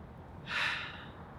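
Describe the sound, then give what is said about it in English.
One deep breath, a soft, airy rush of air that swells and then fades, heard quietly on its own. “But first, let's all take a deep breath.”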